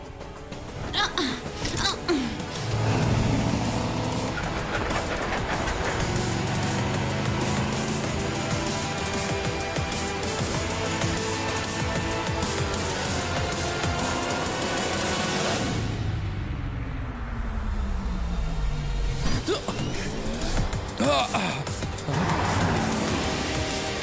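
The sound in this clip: A car drives in a video game, trailing behind other vehicles, giving a continuous engine drone with a brief falling pitch partway through before the steady hum returns.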